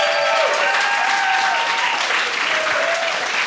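A live audience applauds a guest with steady, dense clapping that holds at an even level throughout.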